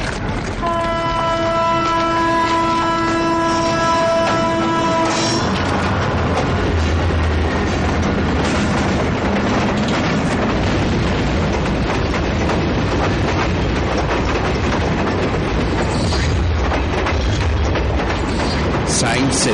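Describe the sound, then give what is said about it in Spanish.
A train passes on rails. A sustained, tonal horn sounds for the first few seconds, then a loud, continuous rumble and rattle of wheels on track runs to the end. “cruza unos raíles segundos antes de que pase un tren”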